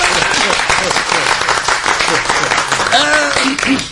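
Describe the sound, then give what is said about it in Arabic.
Group applause rises and holds steadily for a few seconds, a dense crackle of many hands with voices talking over it. “تصفيق على امي قميره.”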